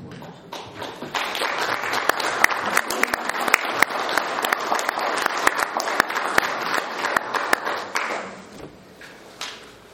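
Audience applause at an Italian gathering, with crisp individual claps standing out over a steady clapping texture that holds for several seconds and then dies away toward the end.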